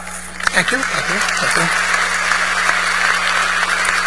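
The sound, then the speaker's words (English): Audience applause during an award acceptance speech: a dense, steady clatter that fills the whole clip, with a voice heard briefly over it near the start. “Don't applaud, throw money.”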